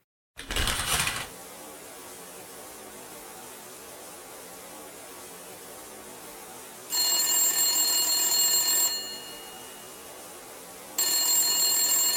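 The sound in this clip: A telephone rings in two separate bursts, each a loud, rapid bright bell trill lasting about two seconds, divided by several seconds of quiet hiss, after a brief noisy thump at the start.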